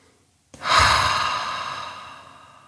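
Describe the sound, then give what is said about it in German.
A single deep, audible breath during a relaxation exercise: an abrupt rush of airy noise that swells quickly, then fades slowly over about two seconds, heard alone. “Nimm ein paar ganz tiefe Atemzüge”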